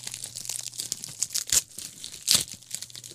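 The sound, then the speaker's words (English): A bubble-wrapped, duct-taped mail package is unwrapped: quiet crinkling of plastic and tape throughout, broken by two louder tearing rips. “It's all bubble wrapped and all that. It duct taped up. That's right, I'm opening up the Maximum Threshold mailbox.”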